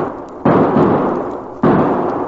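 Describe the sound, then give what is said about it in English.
Gunshots in a radio drama: two loud, sharp bangs, each trailing off in a decaying tail. “Billy Blue Blazes, those shots. Babson must have seen Chad.”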